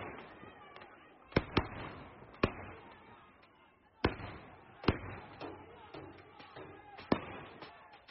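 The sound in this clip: Gunfire by security forces at night in Mandalay, Myanmar, amid protests against the military coup. Several sharp, faint bangs come at irregular intervals while a voice talks over them.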